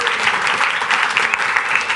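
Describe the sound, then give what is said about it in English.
Live audience at a Super Week event in the Hungarian mountains clapping together, a dense, steady patter of many hands that holds at an even level throughout. “Please clap to signal your consent, and welcome to our show with a live audience at Super Week!”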